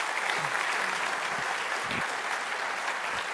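Steady applause from a church audience welcoming missionary guests at a Sunday service, a dense, even wash of clapping that holds at the same level throughout without a break.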